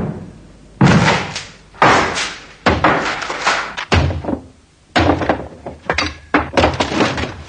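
Heavy blows and slams as a bolted wooden workshop door is forced open: a series of loud thuds spaced about a second apart, then a busier run of sharp knocks and cracking impacts.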